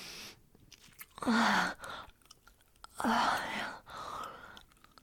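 Gum chewing with soft, wet smacking, broken by two louder breathy bursts of close whispering.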